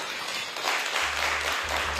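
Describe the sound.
Applause breaks out in a courtroom as convictions are vacated and an indictment dismissed. Clapping swells to a fuller, louder wash partway through, with a low steady hum beneath it.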